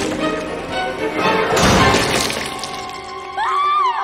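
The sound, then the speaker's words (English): A clothes rack loses a wheel, teeters and smashes into a chocolate fountain on a table, giving one loud crash and rattle near the middle, set against a steady tonal background. “As she hangs a dress, a wheel falls from the rack, allowing it to teeter and smash into the chocolate fountain on the table behind.”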